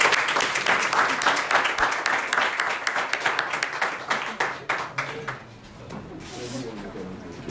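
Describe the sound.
An audience at a Rotary club evening event applauds to welcome a keynote speaker. Dense, steady clapping from many hands holds loudly for about five seconds, then thins and fades as a voice begins.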